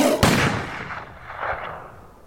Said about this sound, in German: Als er sprang, riss ich mein Gewehr hoch und schoss.